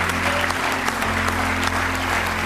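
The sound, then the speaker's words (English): Applause from a church audience: dense, continuous hand clapping at a steady, fairly loud level. “Give Him another good hand clap of praise if you love Him.”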